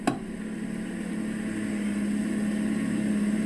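Steady engine drone from a Honda Jazz with a paddle-shift gearbox: a low, even hum that grows slightly louder, with a steady low tone settling in about halfway through. No voices.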